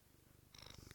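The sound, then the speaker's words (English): A cat purring, a faint, steady, rhythmic low rumble that goes on throughout with no voices. “Oh, that's my cat.”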